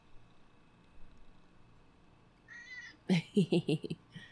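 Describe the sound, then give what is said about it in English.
A male pet cat meows in a studio, giving a fainter drawn-out call followed by a rapid run of several louder, sharp meows against a quiet background. “That's my cat, everyone.”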